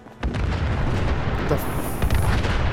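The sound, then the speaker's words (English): Explosion in a video game: a sudden loud boom breaks in, then a heavy rumbling roar holds steady, with a second burst near the end. “What is going on? I don't know what just exploded, but But I'm glad we weren't there when it did.”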